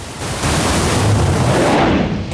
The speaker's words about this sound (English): The TV picture fills with static.